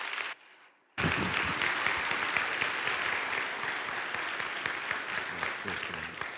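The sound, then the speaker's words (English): Audience applause welcoming a guest preacher: a brief quiet moment, then clapping bursts in loudly and carries on as a dense, even clatter of many hands. “So would you put your hands together and welcome Dr. David Thomas as he comes to minister to us.”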